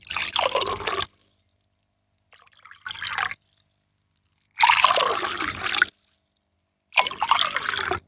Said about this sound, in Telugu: ఒక 4 గాజు గ్లాసులు తీసుకుని వాటిలో సమానంగా నీళ్లు పోయాలి.